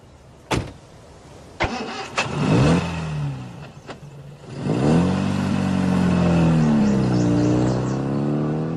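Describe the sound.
A car engine cranks and starts after a few sharp clicks, then revs and pulls away with a rising and falling engine tone that settles into a steady mid-pitched drone; no voices.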